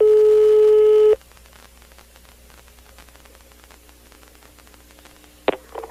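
Telephone tone on a prank call after the line drops: a single steady electronic tone lasting about a second cuts off abruptly, followed by faint line hiss and a brief handling noise near the end.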